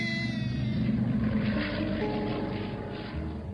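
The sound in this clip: A propeller airplane drones steadily in flight after losing its starboard engine. The engine noise is a continuous, low, rumbling hum with a faint whine above it, and it stays even throughout.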